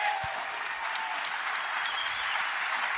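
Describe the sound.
An audience applauds to welcome a guest, a steady, dense wash of clapping that holds at even loudness throughout without any clear voices.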